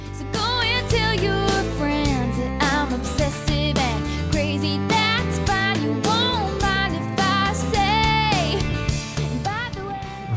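A re-recorded pop song plays at full volume, with a bright sung lead vocal over a dense band of guitars, bass and drums that holds a steady, busy rhythm throughout.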